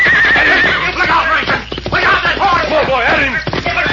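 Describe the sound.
A horse rears and neighs while fighting off would-be captors, lashing out with its hooves; loud, wavering whinnies fill the whole stretch with a shrill, shaking pitch.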